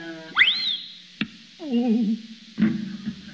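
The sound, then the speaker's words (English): Cartoonish effects stand in for an arrow shot from a bow in a William Tell stage act: a rising whistle-like boing, a sharp knock of impact, a wobbling twang, then another thud with a brief rattle. “William Tell draws back his bow and... I will now put the arrow through the apple.”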